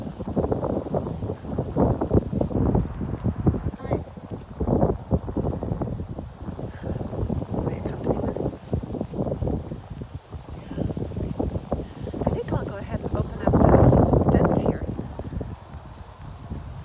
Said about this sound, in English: About the wind picking up. Might have to go take a little shelter myself to complete this so you can hear me.